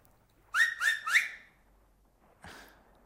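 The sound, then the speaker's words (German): Three short, loud, shrill finger whistles sound in quick succession, each sliding upward in pitch, followed after a pause by a brief breathy rustle. “Am Mittag, wenn die Karawane kommt, auf meinen Fingern pfeife ich 3-mal. So.”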